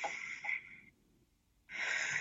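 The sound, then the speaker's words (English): A deep breath taken and let out during an Emotional Freedom Technique tapping exercise: a soft, airy rush of breath, a pause of near silence, then another breathy rush as the air is released. “And then what we're going to do is that I'm going to take a deep breath”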